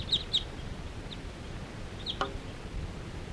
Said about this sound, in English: you have a whole bunch of crossbills interacting in the sky here, and now they're all perched up in the fir tree nearby.